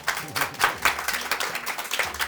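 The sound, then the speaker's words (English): Audience applause after a live talk held in a showroom: scattered hand claps arriving in uneven pulses of varying loudness. “I think let's have a round of applause.”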